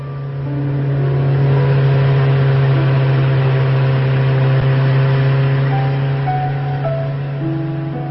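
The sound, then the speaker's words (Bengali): A Hero four-stroke motorcycle engine drones at a steady pitch while riding a long route, a constant and fairly loud hum with strong low harmonics that holds even throughout, with no talk. “চলছে hero snake, four stroke engine বলে বেশ সুবিধা মতো long রুটে drive করা যাচ্ছে।”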